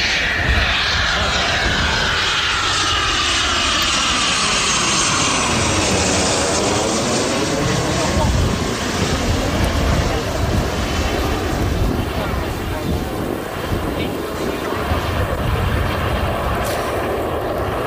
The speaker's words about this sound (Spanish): Este es el sonido del Eurofighter, un avión de combate de última generación